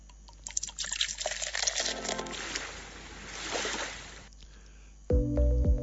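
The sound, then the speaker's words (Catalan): Liquid pours from a freshly opened bottle in a steady, hissing gush lasting about four seconds, then fading as music begins at the end. “I ara sí, tornem a obrir l'ampolla.”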